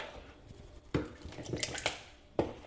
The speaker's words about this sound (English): And my ice bag. Screw the lid on.